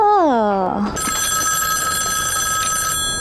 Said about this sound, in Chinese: 电话，哦，电话来了，是不是？